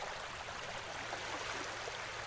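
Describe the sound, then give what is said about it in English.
Soft rain falling, a gentle, even hiss with no distinct drops standing out, quiet and unchanging throughout. “Sometimes, the raindrops fall so softly they can barely be heard.”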